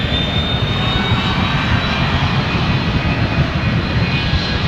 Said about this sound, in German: wenn der Pilot die Starterlaubnis bekommen hat, geht's los. Dann gibt er Gas.